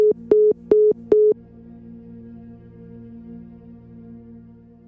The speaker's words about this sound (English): The caller has hung up.